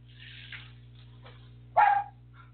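A dog outside gives one sharp, loud bark near the end, preceded by a couple of faint, brief yelps over a low steady hum.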